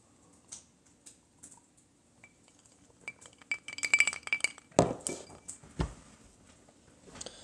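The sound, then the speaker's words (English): Keyboard typing as someone writes a reply: irregular clicks and taps, sparse at first, then a denser burst of keystrokes with a few sharper clinks. No one speaks. “a few minutes to type up a response to that.”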